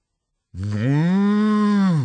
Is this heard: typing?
no